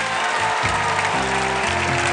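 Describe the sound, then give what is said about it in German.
Audience applause at a farmyard celebration for a cat, a dense and steady clatter of clapping throughout, with low musical notes stepping beneath it. “Dann Vorhang auf und Applaus für Sokrates!”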